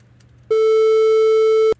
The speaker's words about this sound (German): Also sehr stark nehmen die Amplituden ab und wir haben auch nur die Ungeraden drin. Dadurch haben wir ein klein wenig volleren Klang, ein bisschen höheren. Ich spiele die 2 nochmal ab, damit man es hören kann.